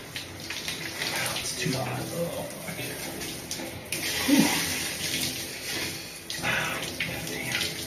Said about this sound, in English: I'm going to rinse it off, get all that grime, all that sweat from the gym, for me at least.